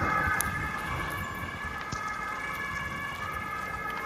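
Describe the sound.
An ambulance siren, on its way to pick up a heat victim, holds a faint, steady tone over continuous background noise.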